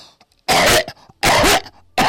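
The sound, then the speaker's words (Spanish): A person gives forceful coughs, three loud, harsh bursts separated by short pauses. “Porque ese golpe de tos fuerte, como que acabo de hacer yo”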